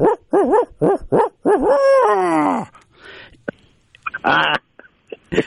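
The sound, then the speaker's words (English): A human voice imitates great horned owl and barred owl hoots: a rhythmic run of about five short, wavering hoots, then one longer drawn-out hooting call, followed by scattered quieter sounds. “If it's a great horned owl, it's kind of a, and if it's a barred owl, it's kind of a.”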